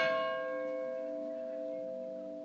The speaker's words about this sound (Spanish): ¿Cuántas campanas vas a tocar? Como 20 minutos. 20 minutos de campanas van a sonar.